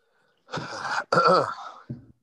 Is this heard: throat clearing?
yes

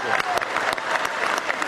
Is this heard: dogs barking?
no

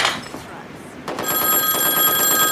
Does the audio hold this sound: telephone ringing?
yes

